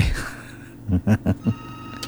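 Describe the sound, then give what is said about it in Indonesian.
A telephone rings with an incoming call as four evenly spaced short buzzing pulses. They are low and fairly soft over a faint steady hum. “sudah ada telepon yang masuk ya, sebentar.”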